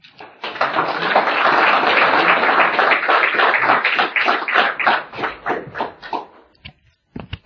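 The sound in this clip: An audience at a recovery meeting applauds to welcome a speaker: dense, loud clapping for about five seconds thins into scattered single claps and fades, with a couple of last claps at the very end.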